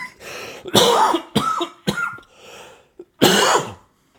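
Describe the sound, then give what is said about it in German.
A person's harsh coughing with some throat clearing: a few loud, rough bursts spread unevenly, with no other talk. “So ein Huster hier. Aber ich schneide es nicht weg.”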